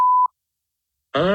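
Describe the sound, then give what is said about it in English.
A telephone call being dialed: a single short, steady dialing tone, then about a second of silence, followed by a loud, buzzy harmonic tone that holds to the end. “all right, are you ready for us to call? Please. Okay, here we go.”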